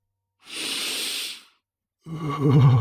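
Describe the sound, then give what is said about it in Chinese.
A performer voices a dog-like character taking a long, deep sniffing breath to smell a steamed bun. A steady breathy hiss is followed, after a pause, by a wavering voiced exhale. “尼才用力做了个深呼吸”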